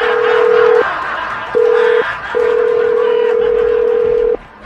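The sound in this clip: Telephone line tone as a number is dialed to place a collections call: a loud, steady mid-pitched beep sounds in three segments, two short and one long, over a noisy hiss.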